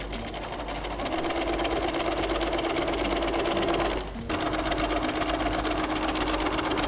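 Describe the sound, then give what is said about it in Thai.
A sewing machine stitches a folded, pressed fabric strip with a steady, fast mechanical whir. It pauses briefly about two-thirds of the way through, then resumes at the same even pace. “เราจะได้เย็บง่ายขึ้นเราก็เริ่มเย็บนะคะ”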